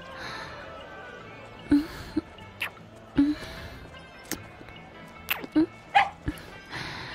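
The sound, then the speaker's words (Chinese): A dog barks and yips in many short, sharp bursts spread across several seconds, some coming in quick pairs, over a faint background. “啊，为什么会有狗叫啊？”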